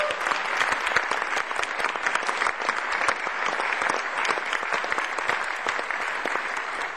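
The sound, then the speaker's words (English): An audience applauds the drummer at a live jazz concert. The dense, steady clapping holds at an even level for the whole seven seconds. “Again, how about a hand for Mr. Jason Marcellus on the drum?”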